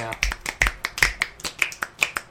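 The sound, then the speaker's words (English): Finger snapping with wet hands: many sharp, crisp snaps in a quick, slightly uneven series, fairly quiet, each one a short bright click. “My hands are wet. I was trying to snap.”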